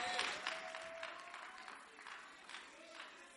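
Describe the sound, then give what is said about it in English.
Applause from a church audience welcoming a speaker who is about to give a testimony, a steady wash of clapping that stays fairly faint and even throughout. “Please put your hands together as we welcome Richard Menu to share his testimony with us.”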